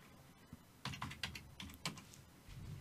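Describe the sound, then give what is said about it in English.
Keystrokes as a search query is typed: an irregular run of light clicks clustered mid-clip, fairly faint over a low steady background, with no talk. “Type in no leg wrestler Instagram.”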